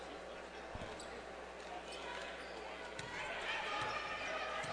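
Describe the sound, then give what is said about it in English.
A basketball is dribbled on the court during a game, with a few faint, dull bounces under steady crowd and court noise. “Dribbles it into the backcourt.”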